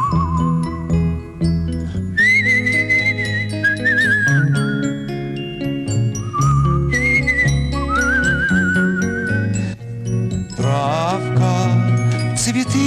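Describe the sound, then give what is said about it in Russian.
Someone whistles a wavering, tuneful melody while swaying and holding onto a tree trunk in a sunlit wood. The clear whistle slides between held notes over a dense backdrop of tinkling, jingling music. “Худой держится за ствол, качается, свистит.”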